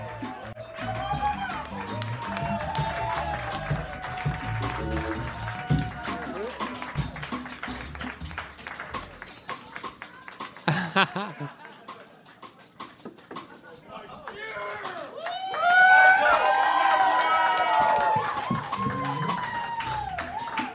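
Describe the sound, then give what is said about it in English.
Crowd noise at a live comedy show, a steady roar of cheering and clapping under a man's voice, swelling into a louder burst near the end. “Ladies and gentlemen, come on, guys. Keep making noise for Michael Lehrer.”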